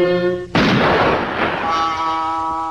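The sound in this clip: A single loud cartoon gunshot cracks out after a brief held tone, then its rumbling tail fades under a sustained higher tone.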